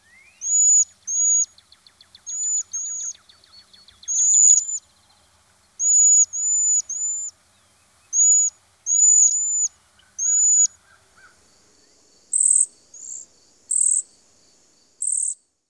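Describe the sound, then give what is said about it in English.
A cedar waxwing, a small 5-inch bird, gives high, thin whistling calls in a steady series of many short, sharp notes. A rapid buzzy trill runs through the early part, and no voices are heard. “If you guessed a cedar waxwing, you were right.”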